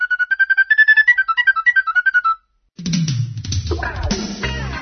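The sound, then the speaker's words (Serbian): Radio show jingle of quick, bright electronic beeps in a bouncing melody. A short pause follows, then a fuller burst of music with low tones. “Jednostavno smo morali još jednom da čujemo ovaj džingl, jer je to poziv za prislanicu i poziv za slušalce da isprate večeras prenos te divne manifestacije”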